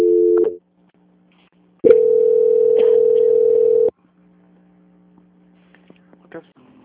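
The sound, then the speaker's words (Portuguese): Telephone line tones play while a call is transferred: a short tone, a pause, then a steady mid-pitched tone held for about two seconds over a low constant hum, followed by faint scattered clicks. “peço que o senhor aguarde em linha que eu vou transferir sua ligação para um controle de qualidade”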